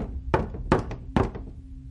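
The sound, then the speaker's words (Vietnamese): Sudden knocking on the door of a neighbouring room: three heavy, hollow thuds at an uneven pace, with a couple of lighter taps following them. “Sau đó, cửa phòng bên cạnh bị gõ. Tiếng gõ cửa vang lên rất đột ngột, làm cho mọi người giật thót cả mình.”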